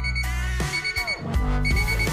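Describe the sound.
An alarm clock rings with a steady electronic tone made of layered, bright harmonic notes that sound for about two seconds, with a few short dips in level.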